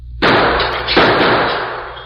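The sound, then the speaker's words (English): Gunshot blasting out a store window during a hold-up: two loud, sharp bursts under a second apart, each trailing off into a long hissing decay of scattering glass, with no voices. “He shot the glass out of the window.”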